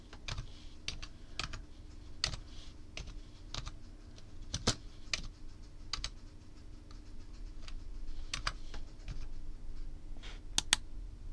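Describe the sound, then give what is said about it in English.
Typing on a computer keyboard: many quick, irregular key clicks at a fairly soft level, running steadily with no voices. “You can hear me messing with my computer right now. Something I gotta type in.”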